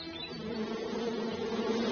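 Buzzing of a green-headed blowfly used as a story sound effect: a steady, unbroken drone that holds an even level throughout.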